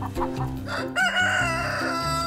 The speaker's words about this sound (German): Das Projekt ist jetzt für heute beendet mit den Hühnern.